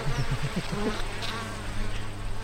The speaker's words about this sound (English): If they couldn't get out, they would be having problems in the hive. Come on. Come on. Come here, little bee.